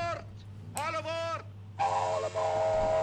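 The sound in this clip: An animated cartoon train whistle chimes in bright, voice-like tones: a short toot, then a longer wavering blast, then a long sustained one, all over a steady low hum.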